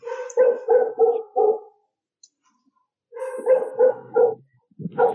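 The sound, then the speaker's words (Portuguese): A dog barks outside in two short bursts of a few loud, clipped barks each, separated by a brief silence, with no talk over them. “Tem um cachorro lá fora, viu?”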